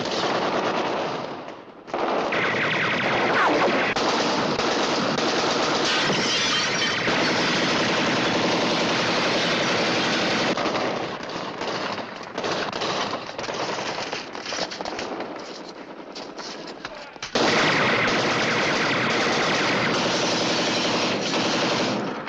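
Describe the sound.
Machine-gun fire rattles through a room full of flying glass, loud, dense and sustained, with a brief break near the start and a slight easing late before the firing surges back.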